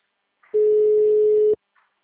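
Ringback tone on an outgoing telephone call: one steady, mid-pitched beep lasting about a second, loud and alone, with near silence on either side.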